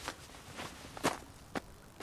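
Footsteps of a man walking away: five evenly spaced, moderately loud steps about half a second apart, each a short scuffing thud over quiet background noise.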